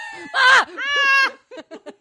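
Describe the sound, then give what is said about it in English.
A person yells loudly without words, with two long, strained, high-pitched vocal cries, then a few short, clipped vocal bursts in a quick rhythm. “I usually just end up like yelling.”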